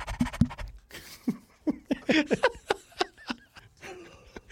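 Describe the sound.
A person imitates the heavy, rapid panting of someone after a big run: many quick breathy huffs in an uneven rhythm, broken by laughing catches.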